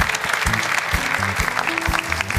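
Applause from an audience greeting a football expert on a sports show, a continuous even clapping wash with short low tonal sounds breaking through beneath it.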